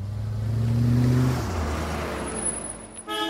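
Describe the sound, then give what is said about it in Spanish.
A fashionable car arrives, its engine droning loudly with a steady tone that drops and eases midway, then settles into a softer, even rumble. “Las pocas veces que viene a verlos lo hace en un carro de moda.”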